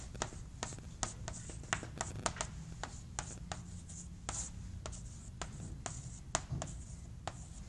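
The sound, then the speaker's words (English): Writing on a board: many short, faint scratching strokes in an uneven rhythm, with small pauses between bursts and no talk. “but how about if I write it this way?”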